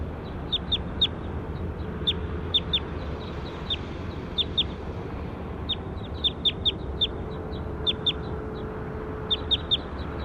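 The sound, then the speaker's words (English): Bird calls: many short, high chirps in small clusters, scattered across the whole stretch over a steady low background hum. “We're recording bird two again.”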